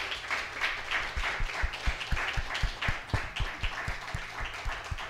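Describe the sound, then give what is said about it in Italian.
Audience applause for a returning performer at an anniversary evening in Milan, a dense patter of many hands with heavier claps pulsing through it at a regular pace. “Ha vinto l'incontinenza ed è tornato e si è preso il suo bellissimo applauso, meritatissimo, gentilissimo, cordialissimo, è sempre un piacere.”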